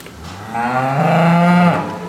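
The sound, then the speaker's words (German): A Holstein-Friesian dairy cow with black and brown spots moos on a large farm with milking robots. It gives one loud, drawn-out, harmonic moo that swells and then cuts off, with no voices. “Insgesamt gibt es hier rund 1100 schwarz- und braun gefleckte Holstein-Friesians. Die besten Milchkühe, die es eigentlich zurzeit gibt, ne?”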